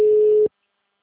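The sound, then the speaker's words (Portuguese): Telephone ringing tone from an outgoing call: one loud, steady, mid-pitched tone that holds for about half a second and then cuts off abruptly into silence. “Ligar pro Chatonildo do cliente aqui. Chamou aqui.”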